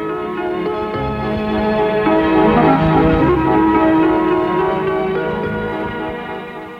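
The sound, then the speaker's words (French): A doorbell rings at a house. Layered, sustained bell tones swell and then slowly fade over about seven seconds, clear and alone with no talk. “Alors, il sonne chez Gilles.”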